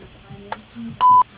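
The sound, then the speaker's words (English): A single answering machine beep sounds: a steady, mid-pitched electronic tone lasting about a fifth of a second near the end. Faint line noise and a couple of soft clicks come before it. “Please leave your name, number, and a brief message after the beep”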